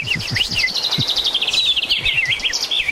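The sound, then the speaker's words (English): A bird-like call whistled by a person: quick, high, warbling chirps that repeat in a steady run with no gaps, fairly loud, alone with no talk. “I've whistled like that before, and like bird actually like turns his head like, hey, what's going on?”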